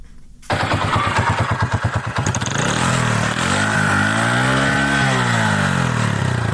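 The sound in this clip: A motorcycle engine runs loudly, opening with a rapid pulsing putter, then settling into a steady drone whose pitch rises and falls as the engine revs, with no talk.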